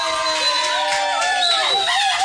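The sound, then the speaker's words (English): Birthday crowd cheering after a call for applause: a steady bed of crowd noise topped by high, sliding whoops and cheers from several voices. “Come and give her a round of applause, people.”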